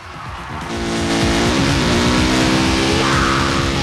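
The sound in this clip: Motorbike engine roars steadily as the bike drags a man on a rope over rough ground. The sound is loud and continuous with a harmonic whine whose pitch wavers throughout.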